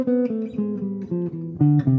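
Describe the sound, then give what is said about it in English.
A descending C bebop scale with a flatted sixth passing tone steps down through a quick, even run of about eight clear, sustained notes, each held briefly before dropping to the next, alone without talk. “So essentially, it is a descending major scale, but with a flatted six as a passing tone being added to it.”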